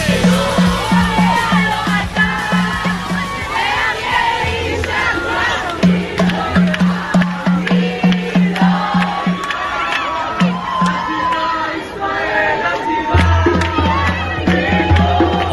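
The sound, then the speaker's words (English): A celebrating crowd of dozens of people inside the airport in Tel Aviv shouts, cheers and chants together, a loud, continuous mass of voices with pulsing rhythmic chant-like phrases throughout. “The audio you are hearing, the celebratory mood, that is happening at the airport in Tel Aviv. And there are just dozens and dozens of people inside”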